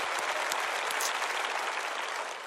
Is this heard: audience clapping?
yes